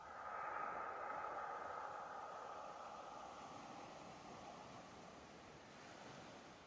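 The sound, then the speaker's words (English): Ocean waves wash in a soft, continuous surf roar, faint and even, with a breathy wind-like hiss and no distinct breaks between swells. “And you can hear the ocean waves in the background.”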